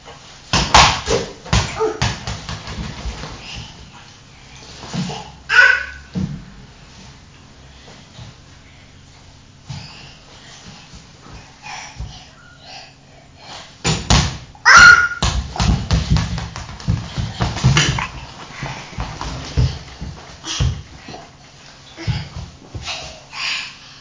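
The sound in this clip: A ball bouncing repeatedly on a hard surface, with many irregular thuds in bursts and pauses and some talk in between.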